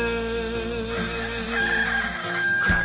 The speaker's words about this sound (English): Dawn, rooster crows, the milk is bottled fresh.